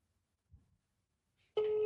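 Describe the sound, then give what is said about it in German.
A telephone signal tone cuts in abruptly after a faint low thump and a quiet stretch. It holds a single steady, loud pitch until the end. “Das ist ein Telefon. Das höre ich sofort.”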